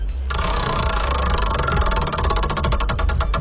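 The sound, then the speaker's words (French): A prize wheel being spun: a rapid ratchet of ticks starts suddenly over a steady, loud rushing bed. The clicks grow more distinct and spread out toward the end as the wheel slows. “Et on va tourner pour toi la belle roue. C'est parti.”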